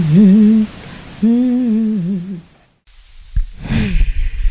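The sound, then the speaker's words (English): A person drawing a deep breath, a soft airy rush of air that comes after a wavering sung note fades into a brief silence. “Taking a breath to start this one.”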